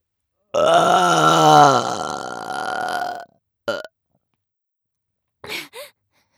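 A loud, long burp rumbles on for nearly three seconds, then gives way to a few brief, fainter vocal sounds after a pause.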